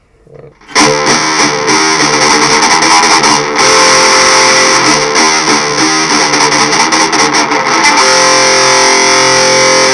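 Electric guitar played through aggressive distortion effects bursts in after a moment of near silence, then sustains a loud, dense, buzzing wall of saturated tone with a few slight dips, without talk.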